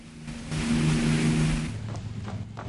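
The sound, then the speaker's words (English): A motorboat engine drones as the boat speeds across a harbour. The low, steady hum swells louder over a wash of rushing noise, then eases off and fades. “A motorboat speeds across the harbour towards an old lighthouse at dusk.”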